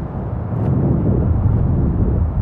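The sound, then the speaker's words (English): Strong wind sweeping across a Las Vegas golf course in the desert, a steady low roaring rumble that buffets the microphone without letup. “The wind today, however, is out of control.”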